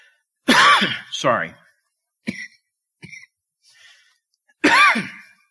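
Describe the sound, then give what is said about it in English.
A man coughs several times during a sermon: two harsh, voiced coughs close together, a few short, quieter throat sounds, then one more strong cough. The coughs sit in otherwise quiet gaps. “Something in the air here, because I never cough when I preach.”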